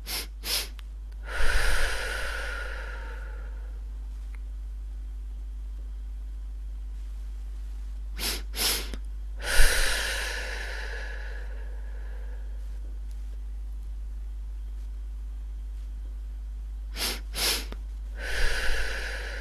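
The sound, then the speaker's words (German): Breathing exercise: two quick nasal inhales followed by one long mouth exhale, a breathy cycle heard three times with quiet pauses between rounds and no talking. “Zweimal kurz einatmen durch die Nase. Einmal lang ausatmen über den Mund. Und zwar so.”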